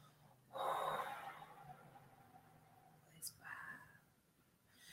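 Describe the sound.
A held breath is let out through the mouth in one long, soft, airy exhale that fades gradually. A few quieter breath noises follow, and nobody speaks.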